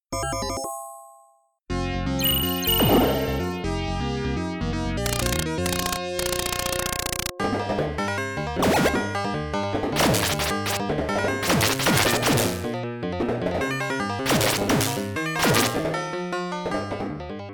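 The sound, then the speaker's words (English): Konami's 1986 arcade game Iron Horse plays electronic chiptune music laced with many sharp, noisy crash and blast effects, after a brief opening tone and a short silence. “It's a Konami game, released in 1986, and it sounds just like this.”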